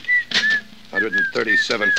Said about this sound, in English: Look, stop that creepy whistling, will you? I'll fix your whistle so it'll never blow again.